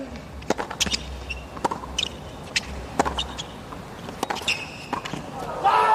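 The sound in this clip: A tennis serve and rally: many sharp, crisp ball strikes in an irregular rhythm, each a brief loud crack. Someone talks steadily underneath the hits.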